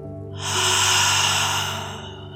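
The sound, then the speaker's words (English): A long, loud breath out through the mouth during a guided breathing exercise, swelling over half a second and then slowly fading over about two seconds, heard alone without talk. “Take an inhale through your nose. Let it go out of your mouth.”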